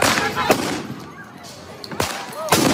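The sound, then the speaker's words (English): Police fire tear gas at protesters, with a few sharp, booming bangs spaced irregularly over loud, rumbling background noise and voices. “police firing tear gas at protesters”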